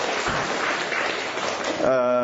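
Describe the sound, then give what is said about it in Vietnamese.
Applause from a church audience at a Catholic gathering rises as dense, steady clapping that fills most of the moment, then gives way near the end to a sustained tonal voice. “Rồi chúng ta cho một tràng pháo tay nữa thưa anh chị em.”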